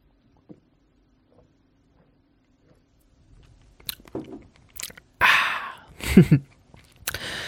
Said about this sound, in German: Einen Moment, ich muss mal ein Schluckchen trinken. Ich mache das Mikrofon weg, sonst hört ihr das noch in Full HD Dolby Surround.